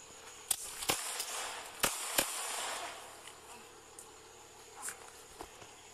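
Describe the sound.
Sharp gunshot cracks during a police confrontation with an armed man hiding in bushes. A few isolated, fairly faint reports come at irregular intervals over a steady background hiss.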